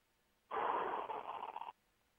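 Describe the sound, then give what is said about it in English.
A person draws a single audible breath, an airy rush about a second long that flutters slightly toward its end. It is heard alone, against near silence. “This breath. and this breath.”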